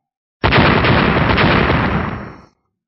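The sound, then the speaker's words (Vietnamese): A loud explosive blast from thrown black orb-shaped bombs bursts out suddenly and roars on as one dense, continuous wall of noise for about two seconds before fading away. “Liên tiếp tiếng nổ đinh tai nhức óc vang lên”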